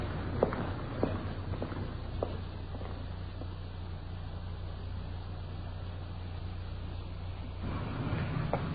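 Footsteps walking up the path to a small English-style cottage: a few soft, evenly spaced steps over a low steady hum, fading out after the first couple of seconds.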